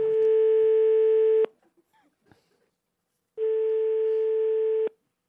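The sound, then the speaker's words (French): Ringback tone of an outgoing telephone call ringing out: two long, steady electronic tones of about a second and a half each, separated by a quiet pause, clear and fairly loud. “On est en train d'essayer d'appeler, évidemment.”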